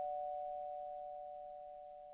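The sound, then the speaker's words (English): An incoming phone call rings as a single steady electronic tone, mid-pitched and unbroken for about two seconds, faint and alone without talk. “We got a caller calling in.”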